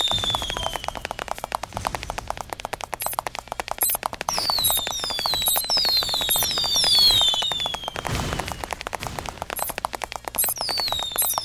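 Bombs exploding in a video game. A dense stream of rapid, crackling pops runs throughout, and high falling whistles repeat over it.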